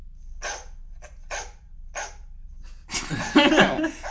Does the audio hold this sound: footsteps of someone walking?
no